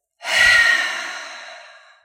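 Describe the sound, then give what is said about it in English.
A single forceful exhale pushed out through the mouth during a guided deep-breathing exercise: one breathy, airy rush that starts strongly and fades steadily over about two seconds, heard alone. “And then I want you to forcefully let it go out of your mouth. It's going to sound like this.”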